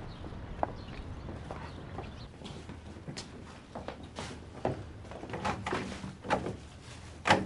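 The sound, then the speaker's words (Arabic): Someone tries a locked door, giving a few faint clunks and rattles of the handle spread through a quiet stretch. “هذا الباب مقفول.”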